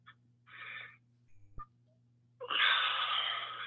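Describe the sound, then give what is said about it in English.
A deep breath heard in a house: a short, soft breathy rush, a faint click, then a longer, louder airy breath lasting over a second, all over a steady low electrical hum with no talking. “Ah, there it is. There it is. The deep breath, like, ah.”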